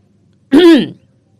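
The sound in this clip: A woman's throat clearing, voiced by a storyteller imitating the sound: one short, loud, voiced "ahem" lasting about half a second, alone and followed by silence.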